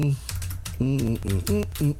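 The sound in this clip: Quick keystrokes clatter on a computer keyboard as someone types a search, with a voice speaking over the clicks.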